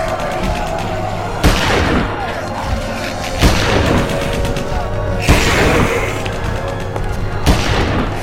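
Energy-weapon fire in a science-fiction audio drama: four heavy, booming blasts at roughly even intervals, each a sharp burst that rumbles away over a continuous noisy battle bed.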